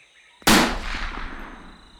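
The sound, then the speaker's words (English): A single gunshot fired at a monkey hanging in a tree: one sharp, explosive crack followed by a long fading rumble, heard alone with no voices. “Maybe he's not scared. I'll shoot it again.”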